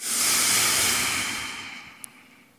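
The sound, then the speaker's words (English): A deep breath out through the nostrils makes a single breathy hiss that starts strong and fades gradually over about two seconds, with one tiny click near the end. “And I want you to breathe in deeply. Purse your lips. Now breathe out deeply through your nostrils.”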